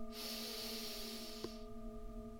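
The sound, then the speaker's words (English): A deep breath is drawn in through the nose during a guided breathing exercise. A soft, airy hiss lasts over a second above a sustained tonal drone of background music. “let's take three deep breaths in through our nose. When you breathe in through your nose, it actually pulls air more deeply into the lower part of your lungs. So let's take a deep breath in”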